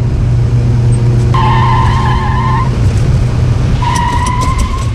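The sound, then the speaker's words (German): Tires squeal as a speeding car skids around a curve: two loud, drawn-out screeches ride over a constant low engine roar. “Achtung, Kurve! Bist du wahnsinnig? Du fährst viel zu schnell.”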